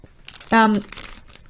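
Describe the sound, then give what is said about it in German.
Plastic packaging crinkling around a bag, a brief crisp rustle lasting under half a second amid faint background sound, with a voice briefly present. “Man hört es ja, das ist Plastik. Also die Verpackung ist in einer Plastikverpackung drinnen.”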